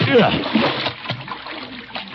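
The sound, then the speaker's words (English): Water splashes as someone in a diving suit with lead shoes steps into a filled bathtub: a sloshing splatter and watery swirl, under a man talking. “This is the first time I ever got in a bathtub not expecting to get wet. Now, that's one leg in.”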